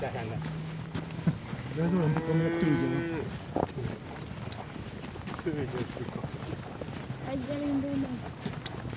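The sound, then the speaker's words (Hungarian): A herd of cows moos in a few long, low, drawn-out calls, with people talking over the animals and between the moos. “Ha bőgnek a tehenek, akkor mi lemaradunk.”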